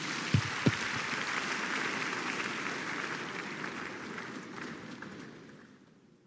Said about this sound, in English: Please put your hands together for Jesus.